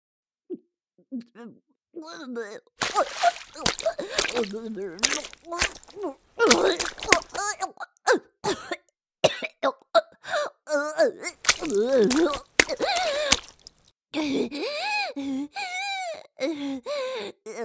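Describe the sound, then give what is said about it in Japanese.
A voice acts out retching and vomiting as a character who calls herself a god throws up. Repeated bursts of gagging alternate with gasps, groans and whimpers, with brief pauses between. “吐いてしもうた。神であるわらわがこのありさまとは。”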